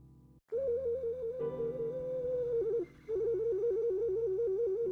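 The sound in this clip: A ceramic otter-shaped whistle blown through its tail gives a warbling, fluttering tone. It holds steadily, breaks off briefly, then resumes as a rapid, wavering trill.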